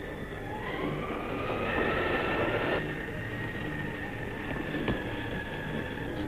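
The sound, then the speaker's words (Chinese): An express train bound for Vienna pulls into a station with a steady, continuous low rumble and a sustained high tone running over it, fairly even in loudness throughout, with no voices. “注意，开往维也纳的快车到了。”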